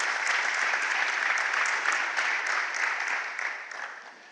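Steady applause from a church audience welcoming visitors during a service: dense, continuous clapping that holds at an even level and then slowly tapers toward the end.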